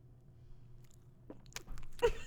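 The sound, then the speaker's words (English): A person chews cake, with soft mouth clicks and bites that start faint and grow louder and more frequent toward the end, with no talk. “is eating cake and having a monster and a frappe all at 10:30 at night”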